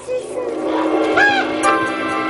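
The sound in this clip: A flock of birds in an aviary gives a few short, nasal honking calls over a steady background murmur.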